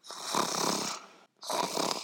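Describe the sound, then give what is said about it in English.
Loud, raspy snoring from a wolf asleep in bed: two long rumbling snore breaths with a brief silent gap between them and no voices. “fell asleep, and began to snore very loudly”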